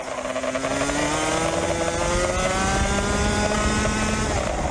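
A 125cc racing kart engine screams at high revs on a Florida track where speeds reach about 100 mph, a loud continuous buzzing drone with slight shifts in pitch and no pauses.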